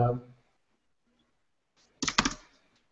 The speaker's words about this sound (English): So you just type what you want to find.